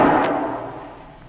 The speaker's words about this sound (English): I squeezed the trigger.